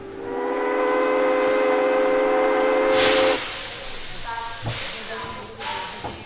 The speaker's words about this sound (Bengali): train ছেড়ে দিল